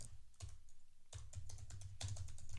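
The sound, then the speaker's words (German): Typing on a computer keyboard, quiet clusters of quick clicking keystrokes with brief gaps between bursts, no voices. “ich tippe.”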